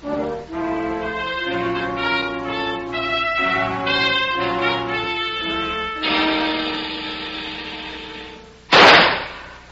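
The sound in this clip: A single sharp pistol shot cracks out at target practice. It is loud and abrupt and follows a long stretch of sustained music.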